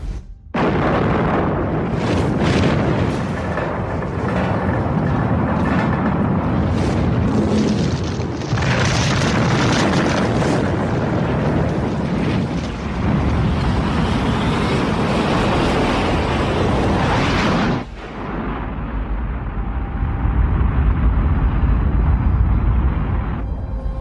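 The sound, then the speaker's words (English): A ship's test missile launch after a countdown produces a loud, sustained roaring blast that holds for many seconds, then cuts abruptly to a deep, lower rumble. “Time to launch. 15 seconds. 14, 13, 12, 11, 10, 9, 8, 7, 1.”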